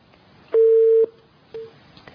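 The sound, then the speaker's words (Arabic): A telephone call disconnecting gives a steady electronic beep of about half a second, a pause, then a second shorter beep, with no talk. “قطع اتصال.”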